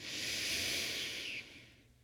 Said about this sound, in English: Now let's take a big, deep breath in.